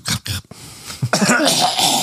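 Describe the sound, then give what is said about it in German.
Coughing from someone who has choked on a nut: three quick, harsh hacking coughs, then a longer rasping, wheezy spell of coughing and throat clearing. “Ich hatte mich gerade mal eben kurz gemutet, weil das möchte keiner hören. Das hört sich an wie 30 Jahre Raucherhusten.”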